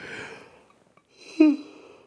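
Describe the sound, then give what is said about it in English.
Mouth breathing comes through as soft breathy air at the start, then a louder open-mouthed breath with a brief voiced catch that fades away. “there I go, mouth breathing again, like the dirty cave creature I am”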